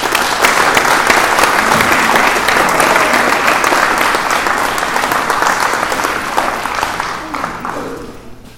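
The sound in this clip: An audience at a sobriety group's supper meeting applauds to welcome a speaker. The clapping is loud, dense and steady, then thins out and fades toward the end.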